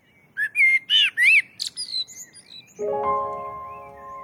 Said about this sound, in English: just listening to blackbirds. I just think it's such a beautiful and gorgeously rapturous sound. And now is the best time to hear it.